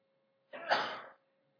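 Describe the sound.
A single short sneeze bursts out sharply and stops about half a second later. A faint, steady low hum runs alone underneath.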